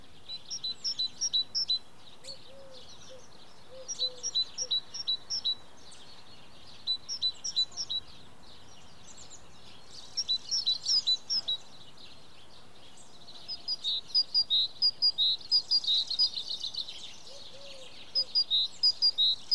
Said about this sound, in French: le silence de la nature, les oiseaux, les mouches qui volent.